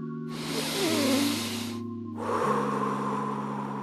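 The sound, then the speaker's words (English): A deep breath drawn in and let out, two long airy rushes with a brief pause between, over soft sustained musical tones. “Take a nice deep breath.”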